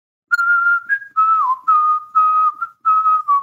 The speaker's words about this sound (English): what the F are you whistling?